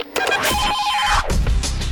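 A telephone rings with a listener's call to a radio station: one bright electronic ring of steady, sustained tones, followed by short clipped bursts.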